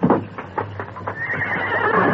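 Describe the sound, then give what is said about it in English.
A bronc whinnies in a loud, drawn-out neigh, its cry building into a bright, sustained squeal that holds steady to the end. “His bronc was grazing near the door. Easy. That's the bronc”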